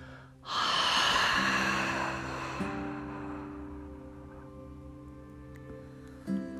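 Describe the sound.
A long, deep exhale in a guided breathing exercise, a loud airy rush that fades slowly over a couple of seconds, with soft sustained musical tones underneath.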